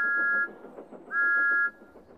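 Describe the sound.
A steam engine's whistle sounds out in the countryside with two clear, steady high-pitched blasts, the first short and the second slightly longer, separated by a brief gap filled with a low rumbling background.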